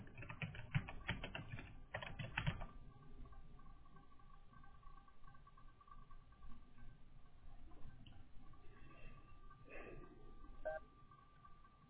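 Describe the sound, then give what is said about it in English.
Rapid clicking keystrokes on a computer keyboard as a name is typed, dense and brisk over the first couple of seconds, then a much quieter stretch with only faint scattered noise; the whole recording is low in level. “And then in the orange box, type out your name.”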